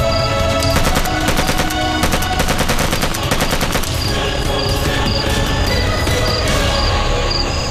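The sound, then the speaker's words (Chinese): Gunfire at a blockhouse, with rapid, loud bursts of machine-gun shots and single cracks overlapping in a dense, unbroken barrage throughout. “还真是有人向炮楼开火了，你听，就是不知道是哪支队伍。”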